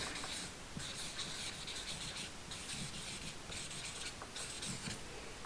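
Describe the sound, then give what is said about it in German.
Pen writing something down on paper: a continuous run of soft scratchy strokes with short pauses between bursts, steady and fairly quiet throughout, with no voices. “Also ich schreibe das mal hier auf. Erstens Berührung.”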